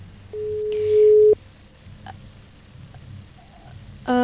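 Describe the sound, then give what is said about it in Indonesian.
A ringing tone plays as a host tries to reach a clinical psychologist by phone. One steady, long electronic beep is followed by a quiet pause with faint clicks, then a second tone starts at the end. “Sekarang Rahil berusaha terhubung dengan Kak Pia ya, dari psikolog klinis.”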